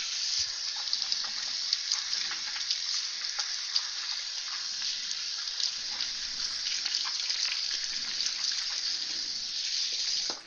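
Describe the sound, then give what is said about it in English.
Running tap water pours steadily over a bell pepper as it is rinsed, a continuous hissing gush at an even, moderate level from start to finish, with no voices. “they just pop right out give it a quick rinse here”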